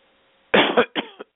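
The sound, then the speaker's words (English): Harsh, loud coughs come in a quick cluster of a few bursts after a short, quiet lead-in. “I'm having a cough today.”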